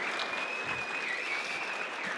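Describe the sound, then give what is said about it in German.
Applause for a handball coach: even, continuous clapping from a crowd, steady in loudness from start to finish. “Nochmal Beifall auf jeden Fall.”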